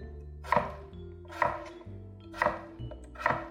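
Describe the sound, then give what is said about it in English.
A knife chops a potato into half-inch cubes with four sharp, evenly spaced strikes against the cutting board, fairly soft over a faint steady hum. “Then I'll flip it 90 degrees, and I'll do about 1/2-inch chops down the potato. And I'll do that on both sides of my potatoes.”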